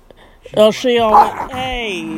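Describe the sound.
A dog growls and whines after being woken from sleep by petting. A few drawn-out, tonal, moderately loud vocal sounds follow one another, with no other sound around them.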